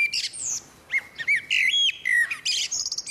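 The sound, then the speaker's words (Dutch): Common blackbird singing: clear, fluting warbled phrases with bright, high twittering flourishes between them, loud and alone without any voices. “Laten we nog even naar een doodgewone merel luisteren.”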